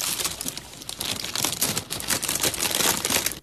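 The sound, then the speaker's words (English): Playing cards shuffled to draw a quiz question: a continuous papery rustle and crinkle that swells and fades unevenly over a few seconds, with no talking. “what we're going to do for you is we're going to juggle up the cards so we can get the first question for you.”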